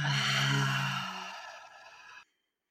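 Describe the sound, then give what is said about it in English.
A deep breath taken and let out during a calm prayer, one long audible breath, slightly voiced at the start, steady and fairly loud before fading away after about two seconds. “Take a deep breath in. And exhale.”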